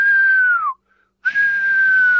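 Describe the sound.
A whistle is blown in a film scene: two long, steady, high-pitched blasts separated by a short silence, the first dipping in pitch just before it cuts off.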